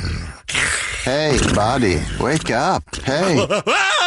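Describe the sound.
A person imitates a monster under a bed, grunting and groaning in long, wavering vocal moans with rising and falling pitch, mixed with another person speaking briefly.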